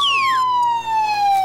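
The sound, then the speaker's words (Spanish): An ambulance siren sounds as a loud, piercing electronic wail. Its strong tone glides steadily downward in pitch, with bright overtones and no talk over it. “dejen pasar la ambulancia ahí”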